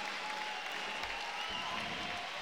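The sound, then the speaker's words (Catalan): Faint, steady applause from a crowd at a sports match, greeting a three-time European champion player, continuing as an even wash of clapping throughout. “Aquests aplaudiments són per el tres vegades campió d'Europa de Mopa, Kevin.”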